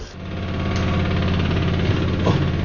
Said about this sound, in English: The spin cycle started.